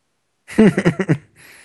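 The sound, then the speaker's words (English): A dog barks in a video game, a quick burst of several sharp, evenly spaced barks, followed by a faint, thin hiss. “What are you barking at, dog? There's no one here.”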